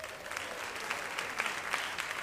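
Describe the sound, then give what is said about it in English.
An audience applauds young school jazz students at a music program event with steady, even clapping that holds throughout. “So how about a hand for those guys?”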